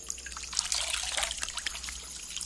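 Water trickles and dribbles as a rag dunked in a bowl is squeezed out over a shaven scalp, a soft, continuous splashing patter that is faint and heard alone.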